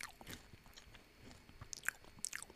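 Someone bites into a chip, giving faint, crisp crunches and chewing sounds, with a few sharper crackling bites near the end and no talking.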